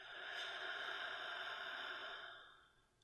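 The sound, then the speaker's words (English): Deep breathing, drawn in through the nose and let out through the mouth, heard as one long, steady, airy rush that holds evenly and then fades away near the end, with no talk. “start with a couple of deep breaths together, okay? Inhale through the nose and out through the mouth.”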